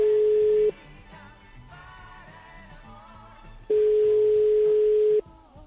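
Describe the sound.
A telephone call rings unanswered: a steady single-pitched ringback tone sounds twice, first briefly and then for longer, separated by a quieter stretch of faint background sound.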